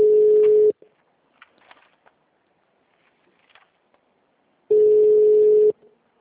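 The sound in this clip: A telephone tone sounds after a dropped call: two long, steady, low beeps separated by several seconds of near silence broken only by faint rustles.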